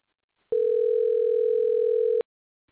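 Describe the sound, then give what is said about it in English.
A telephone dial tone sounds while dialing out: a single steady electronic tone starts abruptly, holds for nearly two seconds, then cuts off cleanly, with silence on either side. “We are going to dial out and get Anne back on in a way. So let's see. Here we go.”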